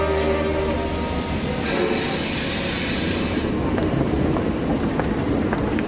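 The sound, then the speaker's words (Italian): A train departs from a station with a steady, loud rumble and a hiss of rolling wheels throughout, with no voices. “Informiamo i signori viaggiatori che il treno ripartirà tra poco. Il treno va.”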